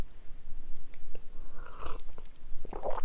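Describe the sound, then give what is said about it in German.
Sips of warm apple tea from a cup: a few short, wet slurping bursts among soft mouth noises, quiet and close, with no talking. “ich nehme auch gleich mal einen Schluck von meinem Apfeltee, wenn der schon so weit ist.”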